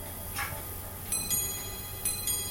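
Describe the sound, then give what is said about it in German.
Faint, regular ticking from the world's most complicated watch. Soft paired ticks recur about once a second against a quiet hiss. “Mit dem Klang der kompliziertesten Uhr der Welt zum Beispiel.”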